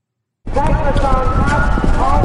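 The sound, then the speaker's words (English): Hoofbeats of a horse galloping in a timber race, a jump race over fences in rolling countryside, come as a rapid, steady pounding under a voice that talks throughout. “We're riding with jockey Eric Peretz on a horse named Touchdown Tony.”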